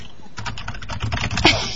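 Rapid clicking of someone typing a web address on a computer keyboard: many quick, quiet keystrokes in an uneven rhythm, with one sharper tap near the end.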